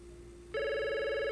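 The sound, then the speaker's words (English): Telephone ringing with an incoming call: a steady, bright electronic ring tone cuts in about halfway and holds loud and unbroken to the end, after a quieter low hum. “The call display shows that Laura is calling.”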